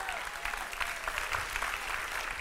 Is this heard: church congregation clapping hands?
yes